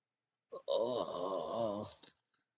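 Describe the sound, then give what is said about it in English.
Quiet groan from a damaged but alive creature inside a backpack, performed by a human voice: a single wavering, moaning tone lasting about a second and a half, with a short breathy tail after it. “He goes to say something else, but he's interrupted by a quiet groan coming from his backpack.”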